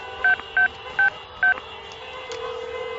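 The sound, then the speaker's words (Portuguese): Telephone number being dialed on a touch-tone keypad: four short, clear beeps in an uneven rhythm, then a faint steady tone. “eu posso telefonar para ele agora mesmo. Por favor. Eu vou ligar para ele agora.”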